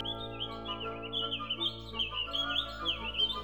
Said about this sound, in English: they heard a chirp and a cheep and a whistle.